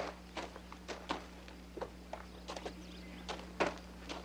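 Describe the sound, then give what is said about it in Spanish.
People walk along, and their footsteps land as many light, irregular taps over a steady low hum. “Siguen caminando.”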